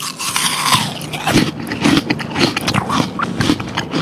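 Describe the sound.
Crisp, crunchy bites into a firm Kanzi apple, a series of sharp crackling snaps and crunches that repeat at an irregular pace and stand out loudly and alone.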